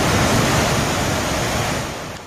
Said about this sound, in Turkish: Karaçay Deresi'nin debisi de yükseldi. Dere taşma noktasına geldi. Dereden akan su yolun bir bölümünün çökmesine neden oldu.